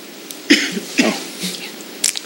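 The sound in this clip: Coughing: a few sharp, dry coughs spaced apart, each a brief raspy burst over a quiet background.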